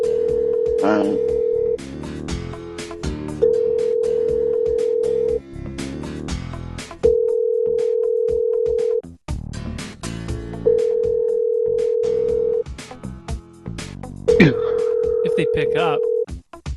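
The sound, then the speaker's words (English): A telephone call's ringing tone, five steady mid-pitched tone bursts of about two seconds each separated by short gaps, heard over busy background sound with voices. “If they pick up the fucking phone.”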